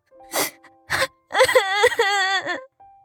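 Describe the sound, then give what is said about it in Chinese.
A young woman crying, voiced by a performer: two sharp sobbing gasps come first, then a long, trembling, wavering wail with catches in the breath before it trails off. “茄子琴又哭了。 你这姑娘怎么跟水桶似的，说哭就哭啊。”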